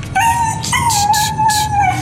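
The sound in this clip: A cold dog whines and howls on a frosty street at night. A thin, high, wavering cry holds for about two seconds, broken by a few brief, breathier pulses.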